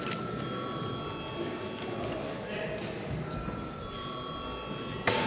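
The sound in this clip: An electric bell rings continuously in a parliament chamber to call members before a vote, a steady high metallic tone held under a murmur of voices and general room noise.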